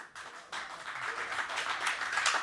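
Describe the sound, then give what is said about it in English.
A live audience at the Blockhouse applauds in a broad wash of many hands clapping. The clapping swells just after the start and keeps building toward the end. “The audience at the Blockhouse, give yourselves a hand.”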